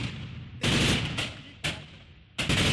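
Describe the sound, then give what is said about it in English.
Gunfire between Kurdish Asayish militia and Syrian government forces fighting over part of a city, loud sustained bursts of automatic fire that start and stop several times in quick succession. “Amateur video showed Kurdish militia units known as Asayish exchanging fire with Syrian government forces over control of part of the city.”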